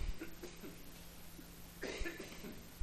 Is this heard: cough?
yes